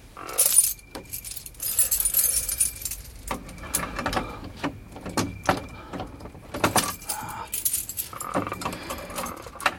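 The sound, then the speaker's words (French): Skeleton keys or lock picks jangling at a sealed apartment door: many light metallic clinks and rattles in irregular clusters throughout, fairly faint, with no talk. “Passe-moi les caroubles.”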